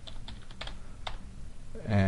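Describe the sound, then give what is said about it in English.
Someone types an address and zip code on a computer keyboard, producing a run of light, irregular key clicks over a low background hum. “let's actually give it an address. So let's say it's 100 Main Street, city is Mountain View, California. Let's give it a zip code,”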